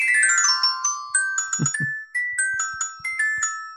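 A short musical jingle introducing a quick game segment: bright chiming tones step downward at first, then a run of repeated plinking notes rings out over a few soft, low thuds.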